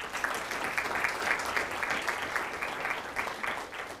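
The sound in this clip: Applause welcoming a judge as guest at a conversation event: a moderately dense patter of individual claps, keeping an even loudness through four seconds.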